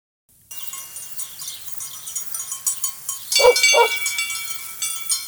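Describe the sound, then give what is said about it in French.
Thin herd of animals led by a ram and a young shepherd coming along a road: a continuous, pulsing stream of bleating with dog-like barks and yips, with a couple of louder calls partway through. “Qu'est-ce qui vient là-bas sur la route? Ce n'est qu'un troupeau, madame. Et bien maigre.”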